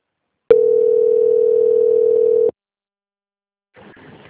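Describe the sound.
A telephone line tone sounds while a call is being transferred: one steady, continuous mid-pitched beep lasting about two seconds, then silence and a faint voice at the end.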